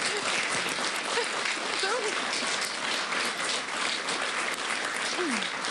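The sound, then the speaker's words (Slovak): Continuous applause from a crowd, dense and even from start to finish, fairly faint. “To je tak zlaté, jak tlieskajú na moje.”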